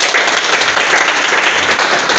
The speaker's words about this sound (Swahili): Tupigeni makofi kwa kwa Kristo.